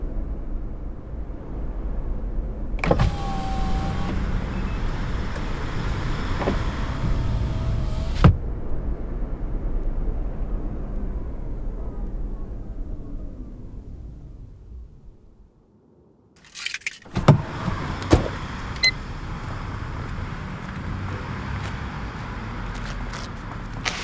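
A car drives along with a steady, low engine and road rumble. The noise dips briefly near the end, then resumes with a few clicks.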